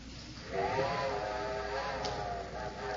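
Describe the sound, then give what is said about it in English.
A steam train's whistle sounds as a steady, sustained tone that holds for about two and a half seconds over a soft hiss. “I'm afraid that's my train”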